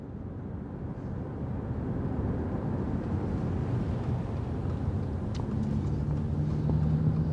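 Car engine rumble from a vehicle driving around a new parking garage in West Philadelphia, a continuous low hum that swells slightly toward the end.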